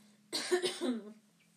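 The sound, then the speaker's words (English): A man's voice imitates throat clearing, as a narrator performs it while reading a story aloud: one short, rough guttural burst lasting about a second, alone over a faint steady hum. “clears his throat”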